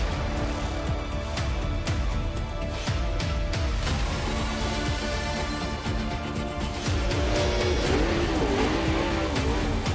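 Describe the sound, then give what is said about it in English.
Race car engines roar at a motor speedway during a race, a loud, continuous, dense drone that holds steady throughout, with engine pitch wavering near the end. “Mansfield Motor Speedway, we are racing.”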